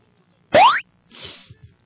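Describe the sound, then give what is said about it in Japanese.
A hundred-sided die is rolled: first a bright, springy boing tone sweeps upward, then a short, soft rattle follows and ends in two light taps. “100面ダイスを1個振る。”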